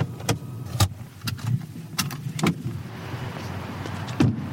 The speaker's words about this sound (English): So we are just pulling back into Volvo's headquarters and our journey is complete.